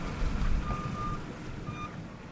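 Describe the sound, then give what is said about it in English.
Reversing beeps sound from trucks and front-end loaders clearing storm-deposited sand near a seawall: two clear, high electronic tones over a low, rumbling engine drone. “On Oceanside Drive, trucks and front-end loaders were clearing tons of sand that the storm had carried over and through the seawall.”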